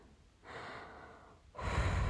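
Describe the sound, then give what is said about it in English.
Deep, nervous breathing: two long breaths, each a soft, airy rush, the second louder and rougher than the first. “No. Just breathe. Everything will be fine.”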